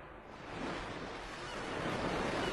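Ocean waves rush in a broad, continuous roar of surf that swells gently after the opening moment and then holds steady and full, with no voices.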